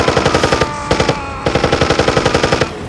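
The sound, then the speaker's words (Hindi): Machine gun fire in battle, with a wounded soldier on the trigger: three loud bursts of sharp, evenly spaced rapid shots, separated by short pauses. “घायल major ने machine gun मंगाई और उसके trigger को रस्सी से अपने पैर पर बंधवा लिया उन्होंने रस्सी की मदद से पैर से फायरिंग शुरू कर दी”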